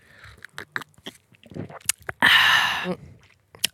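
Chewing and mouth sounds while someone tastes a pastel green food: a few soft wet clicks and squishes, then a sustained louder burst of noise, and a sharp click at the end.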